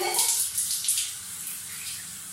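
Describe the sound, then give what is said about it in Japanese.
Water moving in a filled bathtub of hot water: soft, hissing sloshes and ripples that are a little louder at first, then settle into a quiet, even wash. “今日はですね、珍しくね、お風呂場にお湯を張ったのでね、お湯に浸かりながらちょっとダラダラ”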